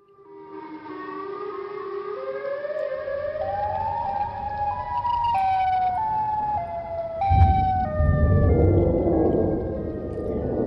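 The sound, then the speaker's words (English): Blaring siren tones said to come from a creature in the woods: several overlapping wailing pitches climb gradually, then hold steady. A deep rumble joins and swells louder toward the end. “it's just a bunch of sirens going off in the woods. Yeah, actually, let's see if we can get a sound. This is what it sounds like.”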